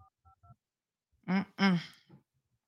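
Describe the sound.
Three short telephone keypad dialing beeps in quick succession, each a clear two-tone blip, followed by a person speaking briefly.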